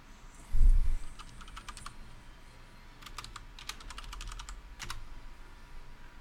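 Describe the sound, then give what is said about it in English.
Typing on a computer keyboard: two quick bursts of light, clicky keystrokes separated by a short pause, over a faint steady hiss. “Now, type Wolverine sword.”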